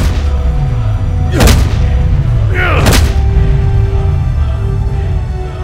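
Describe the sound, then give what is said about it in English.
Two booming blasts strike in turn over a steady low rumble, as glowing fists of energy knock enemies away. “His hands glow a white light as he thrusts them out, blasting the enemy away with his glowing fists of power.”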